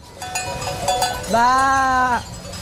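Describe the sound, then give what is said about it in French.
A person's voice imitates a ewe calling its lamb: one drawn-out, nasal bleat lasting under a second, slightly wavering in pitch, following a few softer sounds. “c'est quand tu cherches l'agneau, tu peux faire le bruit de la maman comme ça. Comme si t'étais la mère. Tu l'appelles.”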